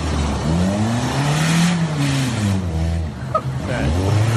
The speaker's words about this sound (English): A 10-year-old doing burnouts.